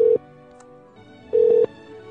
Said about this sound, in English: I'm going to keep calling every single phone number in this entire neighborhood until I get answers.